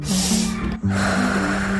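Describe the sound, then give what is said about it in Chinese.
A deep breath is drawn in as a breathy hiss over a steady low tone, then cuts off abruptly. “Let's take a deep breath”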